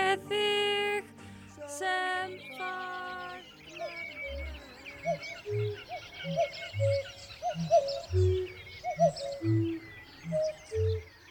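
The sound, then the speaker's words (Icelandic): Birds call out across a moor, a run of many repeated low hooting notes in a steady rhythm, with faint higher chirps and whistles scattered above them. “ímyndaði þér að þú liggir einhvers staðar út í móa. Allt í kringum þið heyrist í fuglum. Sumar tegundirnar þekkir þú af hljóðinu”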